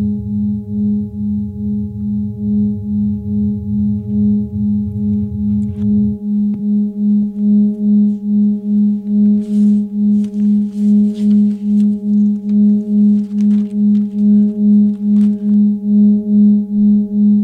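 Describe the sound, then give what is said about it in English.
A sonified recording of a star plays as a steady electronic drone of stacked harmonic tones that throb with a fast, even pulse. A lower buzzing layer sounds underneath for the first few seconds and then drops out. “This is actually the sound of a star singing. That's the music of a star.”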